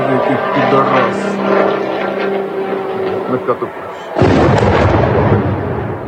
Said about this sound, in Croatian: Ruske snage ovako su noćas zasule Ukrajinu dronovima.